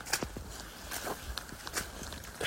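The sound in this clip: Footsteps on wet, soggy ground along a path on a very wet day, several soft, irregular steps with damp scuffing, heard alone without talk.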